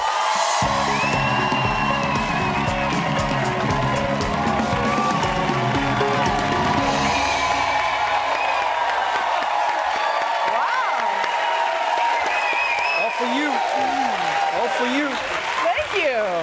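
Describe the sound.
Audience applause and cheering as a guest is welcomed onto a talk show for a standing ovation: dense, steady clapping with whoops that carries through the whole stretch, music under it at the start and voices talking over it near the end.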